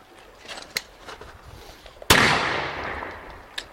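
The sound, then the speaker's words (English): A single loud rifle shot, from soldiers firing five rounds independently after loading from the ammunition pouch, bursts out with a long decaying rumble, with fainter sharp cracks before and after it. “Present! Five rounds, independent firing. Commence!”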